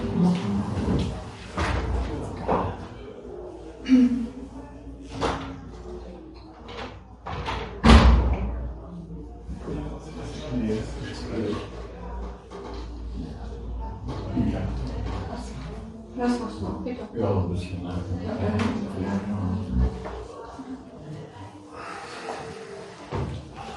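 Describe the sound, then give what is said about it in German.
A window is opened in a warm room, with a clunk of the frame and a single heavy thump among scattered knocks, while people talk throughout. “Kann man ein Fenster aufmachen? Ja, ne?”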